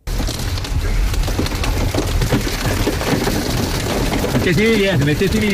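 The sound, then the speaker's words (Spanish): Heavy hail pounds down during a severe hailstorm that halted a road cycling race stage near Font-Romeu, France, a loud, dense, unbroken hiss and rattle throughout. “Este fue el sonido de la tremenda granizada”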